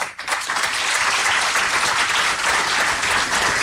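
A crowd at an official signing ceremony bursts into loud, sustained applause, a dense, even roar of many hands clapping that holds steady throughout.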